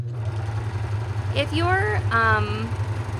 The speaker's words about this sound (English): I'm going to see if I'm still stitching here. Yep.